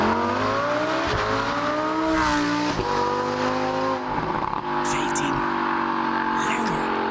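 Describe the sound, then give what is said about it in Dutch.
A Huracán STO sports car engine roars loudly and continuously, its pitch climbing under acceleration and dropping sharply at a few gear shifts. “Ja, zullen we gewoon even luisteren? Want het is een extra sportieve die gebouwd is, de STO. En die klinkt zo.”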